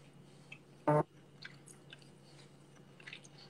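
Food being chewed: soft, wet mouth clicks and squishes scattered irregularly, with one brief loud thump near the start.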